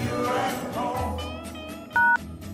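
A telephone being dialed gives a single clear touch-tone beep over a low background hum.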